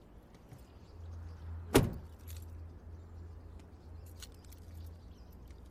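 A person stepping out of a vehicle beside a highway: a single sharp door click rises over a low steady engine hum, followed by faint rustles and small clicks.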